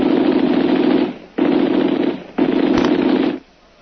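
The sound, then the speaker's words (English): Rapid gunfire from a radio drama sound effect, heard as three loud, dense volleys of about a second each with brief gaps between them and no voices. “Boy, I can't afford to miss him. I fire one cartridge at him, and O'Connor will only have two left.”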